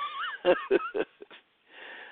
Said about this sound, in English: I'm sorry, excuse me. I'm yawning.